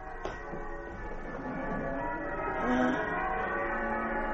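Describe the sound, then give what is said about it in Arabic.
Old cathedral bells ring on Christmas morning, their sustained, overlapping tones forming a steady, rich hum that swells slightly toward the middle, fairly faint and alone. “أجراس الكاتدرائية القديمة العزيزة علي تدق في صباح عيد الميلاد العزيز.”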